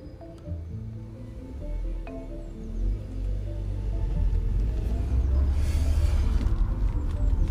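A car drives along with a low, steady engine and road rumble that grows gradually louder. Faint music sounds early on.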